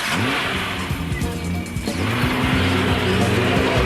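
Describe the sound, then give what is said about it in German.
Car accelerating away hard with tires squealing: a loud, continuous engine roar overlaid with shrill, wavering squeal tones that persist throughout. “Ich gebe Gas.”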